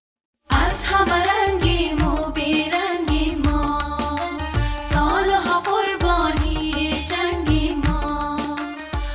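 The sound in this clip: Afghan ensemble music performed on stage in Kabul by a group of young women: a dense, loud, continuous mix with steady percussive beats, starting after a brief silence.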